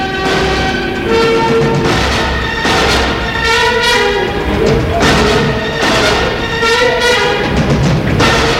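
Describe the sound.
A train pulls out of a station under a grey sky: a loud, steady rumble of rolling stock with sustained horn-like tones running through it, holding at an even level throughout.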